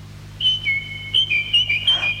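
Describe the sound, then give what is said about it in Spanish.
Whistled birdsong standing in for a nightingale singing from a window: a run of short, high chirping notes in an uneven rhythm over a faint steady low hum. “¿Qué es esto? ¡El ruiseñor del campo canta desde la ventana! Ruiseñor, mi ruiseñor, has regresado.”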